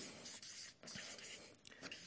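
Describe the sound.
Writing on a board during a talk about church life: a few scratchy, dry strokes with short pauses between them, steady and fairly quiet, with no voices.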